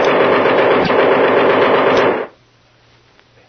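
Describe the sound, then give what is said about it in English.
Rapid automatic gunfire from a gun just before it jams: a loud, dense, continuous burst of shots for about two seconds that cuts off abruptly into near silence. “This gun is jammed”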